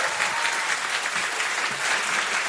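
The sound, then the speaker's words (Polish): Audience applause greets a band's drummer as he is introduced: loud, dense clapping holds an even level from start to end, with no voices over it. “Wielkie brawa, bębny.”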